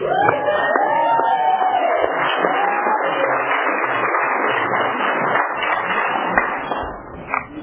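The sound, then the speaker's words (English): Sustained applause and cheering from an audience at a Tulare County gathering welcoming a featured speaker, a dense roar of clapping with whoops that holds steady and then fades near the end. “let's give a rousing Tulare County welcome for our featured speaker”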